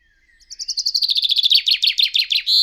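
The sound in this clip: A European robin sings a rapid run of many bright, high chirps that start faint and quickly grow louder, ending on a longer note, heard alone.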